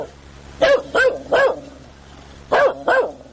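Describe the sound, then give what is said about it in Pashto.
Stray dogs barking in Nangarhar province, five sharp barks in two bursts, three in quick succession, then a pause and two more, loud and clear over a quiet background. “په ننګرهار ولایت کې د کوڅه ډبو سپیو په ډیریدو په خلکو کې اندېښنې زیاتې شوې دي. د هوا په تودېدو دغلته د سپیو شمیر ډیر شوی”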